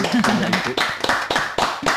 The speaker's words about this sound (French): Tout le studio Welcome. Numéro 1 de Radio Cause Commune applaudit.